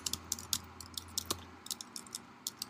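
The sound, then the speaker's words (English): Fingers type on a computer keyboard in many quick, irregular bursts of light plastic key clicks. The clicks are fairly faint over a low steady hum, with brief pauses between the runs of keystrokes. “Let me type this in.”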